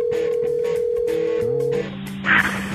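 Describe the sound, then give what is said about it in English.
Telephone tones while checking voicemail: a long, steady tone that shifts to lower overlapping tones partway through, followed near the end by a brief, brighter burst. “Let's check Adam's voicemail, brought to you by eVoice.”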